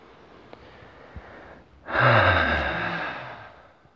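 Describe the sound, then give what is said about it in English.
A deep breath taken during a guided meditation: one long, airy breath swells abruptly, then fades slowly over about two seconds against faint background hiss. “Just take a breath in and let go. In.”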